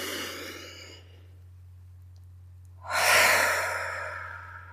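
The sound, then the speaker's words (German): Deep breathing in and out during a relaxation exercise: a long airy breath fades away, a quiet pause follows, then a second loud, rushing breath swells and slowly tapers off. “Deswegen nimm mal 3 tiefe Atemzüge. Wir machen das gemeinsam.”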